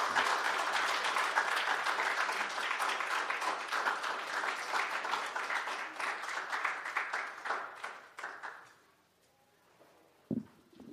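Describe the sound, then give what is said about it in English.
Congregation applause welcoming a pastor to deliver the sermon: dense, sustained clapping that thins out and fades to near silence toward the end, followed by a brief knock. “can we give Pastor Owen a warm welcome as he comes up and delivers to us God's word today?”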